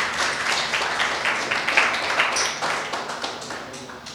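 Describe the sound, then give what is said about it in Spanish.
An audience applauds at a religious talk, giving dense, even clapping with crisp individual claps. It runs steadily for about four seconds without fading and with no voices over it. “Denme un fuerte aplauso, por favor.”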